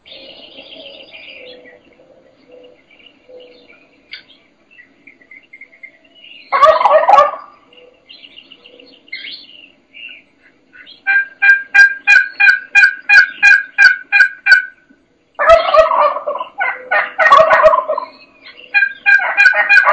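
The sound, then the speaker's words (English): Wild turkey gobbling at an early morning roost, along with loud bursts, a rapid, evenly spaced run of sharp calls and further clustered calling. Quiet stretches separate the bursts, and no voices are heard. “He obviously was gobbling in the dark, and she started in, and I knew I had to kind of just get with her and start mimicking her. It's a great clip here to listen for an early morning roost setup.”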